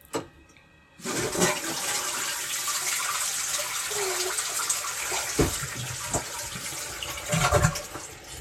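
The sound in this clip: A toilet flushes after use: one short knock, then a loud, steady rush of water that runs to the end and swells briefly near the close.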